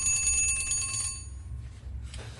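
A mechanical alarm clock's bell rings in a bright metallic trill, held for about a second before it cuts off and leaves low background noise.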